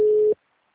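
A single steady phone ringing tone, a call that goes unanswered, sounds as one short, clear, mid-pitched beep that stops abruptly and is followed by silence.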